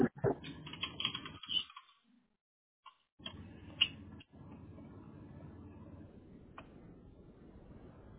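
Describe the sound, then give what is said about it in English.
Faint typing on a computer keyboard while entering a long name into a form: quick clusters of soft key clicks, a brief pause, then more scattered taps over a low steady background. “And you have a long name to type, too.”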